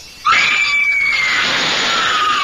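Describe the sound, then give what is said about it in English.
A shrill, high-pitched scream bursts in abruptly and holds a piercing, steady tone for about a second before dissolving into a loud, hissing wash. “That scream, high enough to shatter crystal.”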